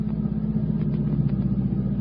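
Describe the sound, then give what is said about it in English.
A Cadillac car drives in pursuit of a mail truck through traffic, giving a steady low engine rumble that holds an even drone throughout with no voices. “Surely you can hang on to a mail truck with a Cadillac.”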